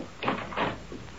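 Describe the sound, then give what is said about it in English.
Door of a house being opened: two brief scraping, rattling bursts in quick succession, then a fainter third sound, all fairly quiet with no talking. “Open the door”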